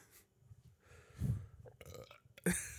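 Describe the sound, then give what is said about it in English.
A quick, low, guttural burp sounds once, brief and fairly quiet, amid faint background rustling and mouth noises. “You just burped.”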